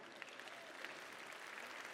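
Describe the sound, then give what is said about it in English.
Spontaneous audience applause during a sermon, a faint, steady wash of clapping that holds evenly for the whole stretch, with a few sharper claps poking through. “I love the spontaneous applause to the simplicity of this promise.”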